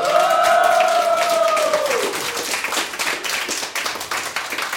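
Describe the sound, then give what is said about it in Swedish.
Clapping and cheering from a live studio audience gathered in the kitchen area of the Fountain House clubhouse on Götgatsbacken. A sustained cheer rings out early, over steady dense applause that carries on throughout. “Får vi höra att vi har en massa publik här också?”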